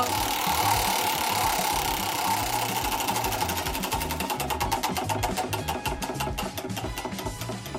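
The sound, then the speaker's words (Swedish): A big glittery chocolate prize wheel spinning in a studio: a fast stream of ratcheting clicks that gradually spread out into distinct ticks as the wheel slows, over a low rhythmic hum. “om ändå ni har dragit in det här stora glittriga chokladhjulet i våran studio så tycker jag, ska vi inte... Vi drar, det är torsdag vi drar. Vi kör.”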